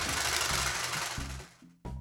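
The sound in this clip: A game-show prize wheel spinning, giving a rapid mechanical whir and clatter that holds steady, thins out, cuts off briefly near the end, then starts again.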